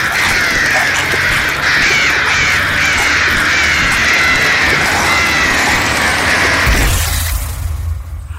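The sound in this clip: Harsh crow caws sound over a dense, loud wash of noise that continues throughout and thins abruptly just before the end.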